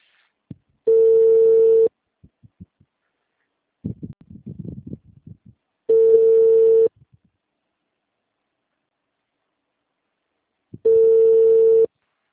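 An outgoing phone call's ringback tone: three steady one-second tones sound at long, even intervals, with faint muffled noises in the silence between them.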